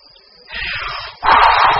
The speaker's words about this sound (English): The wolf blows the house down.